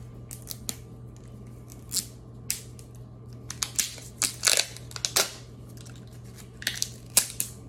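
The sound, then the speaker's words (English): A food package is unwrapped by hand, giving many sharp crinkling and snipping bursts in an irregular rhythm, with quieter rustling between them and no talking. “unwrapping ASMR”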